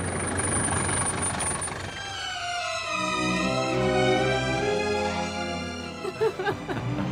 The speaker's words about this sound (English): Oh, here's a cab. Taxi!